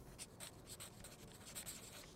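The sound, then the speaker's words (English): Faint scratching of a pen writing down a phone number: many quick, light strokes in an irregular rhythm, soft and alone without any talk. “Here, write it down quickly.”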